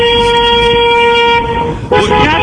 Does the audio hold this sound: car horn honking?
yes